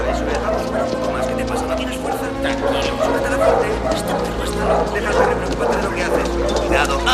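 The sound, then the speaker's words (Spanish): A dog caged and carried into a warehouse barks and yips repeatedly, with whimpering between barks, over a steady low hum. “Dos hombres entran en el almacén cargando una jaula con un perro dentro.”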